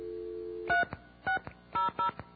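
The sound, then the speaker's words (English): Telephone dialing tones: a low steady dial tone cuts off, followed by four short touch-tone beeps at uneven intervals, the last two close together, with soft clicks between them. “Dial tone. Is this 212?”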